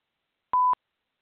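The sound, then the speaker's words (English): A phone call rings through to voicemail and a single short electronic beep sounds at a steady pitch. It is clean and isolated, with silence before and after. “Does seem to be going to voicemail.”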